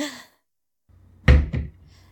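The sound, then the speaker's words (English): A locked door is rattled, giving two dull thumps in quick succession after a brief breathy sound and a moment of quiet. “Tell me, mister, why are you even rattling that door?”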